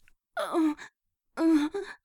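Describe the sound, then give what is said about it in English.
A woman pants and moans in two breathy, voiced bursts separated by a short pause, each trailing into a quicker gasp, with no talk around them. “As I pant and moan for you, I want you so badly I can barely stand it.”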